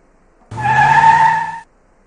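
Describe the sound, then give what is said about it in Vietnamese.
Tires screech as a black BMW 7 Series skids and stops at an angle across the road: one loud, steady, shrill squeal lasting about a second, heard alone. “nương theo tiếng vang khi lớp xe cùng mặt đất phát ra tiếng vang chói tai, chiếc BMW trượt ra một khoảng cách phía trước, sau đó dừng xéo bên đường”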